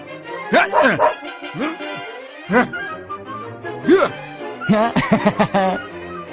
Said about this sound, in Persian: شده سگ مزاحم.